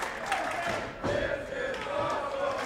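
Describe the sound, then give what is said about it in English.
A wrestling crowd chanting in unison during a tag-team match: a loud, sustained mass of voices that keeps a steady level, with a brief dip midway. “Got the This Is Awesome chant coming from the crowd.”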